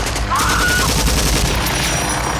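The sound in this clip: Rapid, sustained gunfire in a battle involving a helicopter over trees, a loud, dense crackle of overlapping shots with no break. The shots continue evenly over a heavy, continuous roar.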